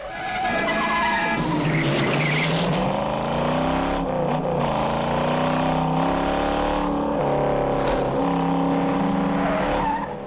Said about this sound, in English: Other road users swerve and hoot.